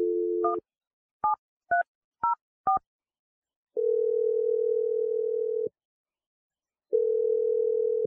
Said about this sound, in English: we're going to take that energy and we're going to dial Jarrett's number and see what he has to say.